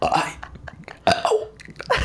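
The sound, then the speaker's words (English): A few loud, throaty burps come in quick succession, separated by short pauses, each a rough, gurgling voiced belch. “Could you imagine if it was a podcast only just burps? Burps. But, like, it's like communicating through burps.”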